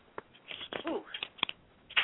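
Soft papery scrapes and flicks as a tarot card is pulled from a deck during a reading, a few brief quiet rustles with a faint murmured vocal sound in the middle.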